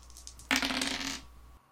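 Die rolling in a tabletop role-playing game: a short, faint clattering rattle lasting under a second over quiet hiss.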